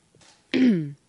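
A single voiced throat clearing, one short, loud rasp that drops in pitch, preceded by faint breathy noise.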